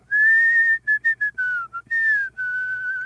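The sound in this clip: Solo whistled song melody of about eight clear, high notes, some held long and others short and quick, with a couple of notes sliding slightly downward. The whistle sounds bright and loud.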